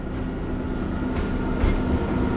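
Narrow-gauge locomotive running on a Polish tourist line with a top speed of about 30 km/h: a steady, loud rolling rumble with a low droning hum throughout and no talking.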